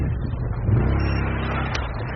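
A quad bike engine revs as it arrives to collect a wounded soldier in a combat zone. It makes a steady, fairly quiet mid-low droning roar that swells slightly, with no voices.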